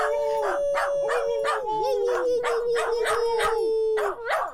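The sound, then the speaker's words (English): A pet dog howls in a sustained, wavering tone while short, sharp yips and bursts break in repeatedly over it. The sound stays loud throughout and ends with a brief final howl. “Oh, we could probably get her howling.”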